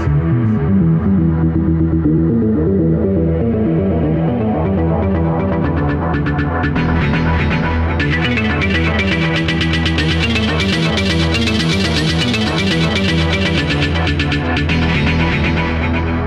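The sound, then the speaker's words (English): Synthesized electronic sound effects from an Amiga computer with four hardware sound channels: loud, throbbing, distorted pulsing tones that grow denser and brighter through the second half. “But let me give you just a taste of the types of sounds the Amiga computer can produce.”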